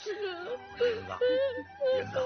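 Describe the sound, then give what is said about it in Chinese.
A person crying and sobbing: a few wavering, voiced whimpers come in uneven bursts, with brief breathy gaps between them. “行了，你就让他哭哭吧。”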